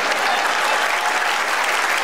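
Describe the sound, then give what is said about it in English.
Audience applause for a ventriloquist's act: steady, dense clapping from a crowd that holds at an even loudness, with no pauses, for the whole short stretch. “Round of applause when he gets his puppet.”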